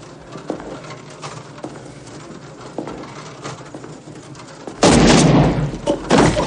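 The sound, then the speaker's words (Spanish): A gunshot rings out in the 1990 action police film The Rookie. A quiet, textured stretch with small knocks gives way to a sudden loud, sustained burst near the end, which then fades and returns. “Camina hacia él lentamente y le dispara en el costado.”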